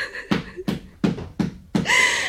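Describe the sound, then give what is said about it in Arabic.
Five loud, evenly spaced knocks on a door, each a sharp thump with a short decaying tail. “مين اللي بيخبط عليا؟ افتحي يما، أنا شملان.”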